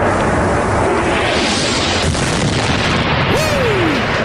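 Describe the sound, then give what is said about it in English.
Artillery rocket fire and explosions in the Baba Amr neighborhood: a loud, dense, unbroken roar with heavy low rumble throughout, plus a brief gliding tone near the end. “Incoming artillery rocket fire in several cities.”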